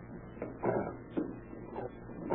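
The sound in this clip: A locked bag being forced open as a radio drama sound effect, with a few muffled, thin clunks and scraping creaks at irregular intervals, faint and tinny, with no talk.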